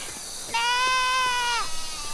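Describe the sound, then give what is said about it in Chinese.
A lamb gives a single loud, nasal bleat that holds a steady wavering pitch and then drops slightly as it trails off. “小羊，你在找妈妈吗？你妈妈也不管你了。”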